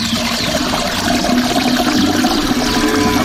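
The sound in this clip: A toilet flushes and its tank refills in a loud, steady rush of water with gurgling and trickling throughout, and nobody talks.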